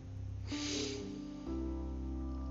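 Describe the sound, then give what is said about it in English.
A brief breathy inhale during a guided meditation, a soft airy rush lasting about half a second over sustained, calm tonal music. “Inhaling here.”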